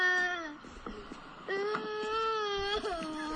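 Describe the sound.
Children crying and wailing as they leave a museum, a sustained high, tonal wail that breaks off a few times and resumes, wavering slightly in pitch and fairly loud throughout.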